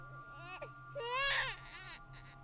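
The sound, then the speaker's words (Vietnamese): A baby cries in faint, wavering wails, a few rising and falling sobs over a steady low hum. “Bỗng nhiên loáng thoáng, Hùng nghe như có tiếng trẻ con khóc. Tiếng khóc ngặt nghẽo đến rợn người”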